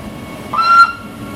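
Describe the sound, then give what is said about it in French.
A rack railway train arrives at its summit station on the Puy de Dôme, with a brief, fairly loud high tone that rises out of a low rumble and then fades back into it. “Et voilà, nous sommes arrivés de nouveau à la gare du Panoramique des Dômes.”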